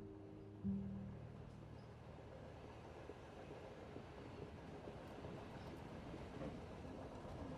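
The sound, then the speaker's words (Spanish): A moving train produces a soft, steady rumble and low rattling of rolling wheels, with a single brief thud near the start, then an even, faint drone throughout. “El tren está en movimiento.”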